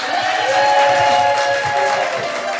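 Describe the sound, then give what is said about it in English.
Audience applause for two performers at the close of a queer stage show, a sustained burst of clapping over steady music that eases slightly toward the end. “can we have a huge round of applause for the gorgeous Mzz Kimberley and Lula.”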